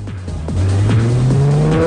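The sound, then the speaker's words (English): Car driving away in a film scene, a loud engine that rises in pitch as it accelerates, with tires squealing over the steady drone and no talk. “Then they're in Brian's car and driving away.”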